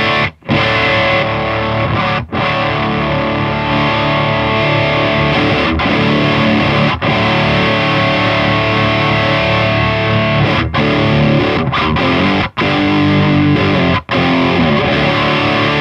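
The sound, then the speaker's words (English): Dense, gritty distorted instrument tone from a distortion pedal with its clipping control set midway, playing continuously and loudly with several brief dips in level. “when using it for bass, you generally would go more towards the no clipping, and guitar, you generally go more towards the clipping. I generally run it in the middle, but let's hear how that sounds.”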